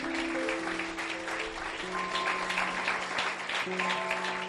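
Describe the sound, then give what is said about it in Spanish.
Congregation clapping hands at a church service, a dense, steady patter of applause that runs throughout over sustained held musical tones. “Clap your hands together. Un aplauso para Cristo.”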